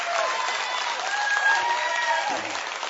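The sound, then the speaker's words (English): Crowd of Green Bay Packers fans cheering and clapping after being urged to make noise, a steady roar of applause and shouts that eases slightly at the end. “How many of you are rooting for the Green Bay Packers? Come on, come on, stand up. Come on, make some noise.”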